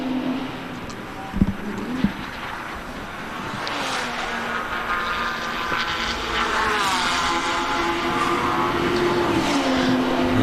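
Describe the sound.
Race car engines droning steadily through a race on a circuit, their loud whining roar shifting in pitch as cars pass, with a couple of sharp knocks early on.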